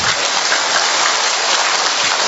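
A crowd claps at a church gathering led by a priest, making a dense, continuous wash of applause with an even level throughout and no voices over it.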